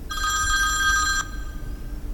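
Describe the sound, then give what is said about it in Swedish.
A telephone bell rings in one steady, bright, buzzing burst lasting about a second, then stops, leaving only a low background hum. “Klockan var 6.25 på tisdag morgon när telefonen ringde.”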